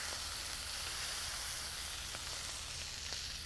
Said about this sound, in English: Now this smash burger should not take that long to cook because it's super thin.